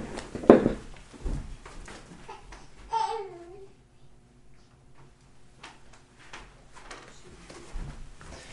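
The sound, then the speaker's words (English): A teething baby girl babbles, with a few soft, brief vocal sounds and one clearer, higher coo partway through, amid faint clicks and rustling in an otherwise quiet space. “Sorry, just had to make sure to take care of the baby. She's going through the teething stage, so we wanted to make sure that she feels calm and comfortable.”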